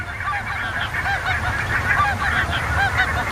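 Geese honking in a dense, continuous chorus of overlapping nasal calls, holding a steady loudness with a low rumbling noise beneath and no pauses.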